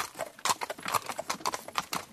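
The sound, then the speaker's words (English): Hooves of a horse pulling a carriage clip-clop as it passes, a quick run of many sharp, fairly even knocks with no voices. “On the way home, they met a horse and carriage.”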